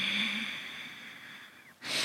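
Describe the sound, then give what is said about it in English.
Audible breathing pushed through the throat, a long, hoarse, airy rush that slowly thins out, then a brief pause before another breath starts abruptly and loudly. “And you can also really make the breath be audible you can you can do it from the throat”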